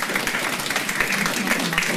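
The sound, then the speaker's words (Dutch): An audience in the public gallery of a council meeting applauds: dense, continuous clapping at an even level throughout. “Ja, ik begrijp dat u klapt, maar ook dat kan eigenlijk weer niet.”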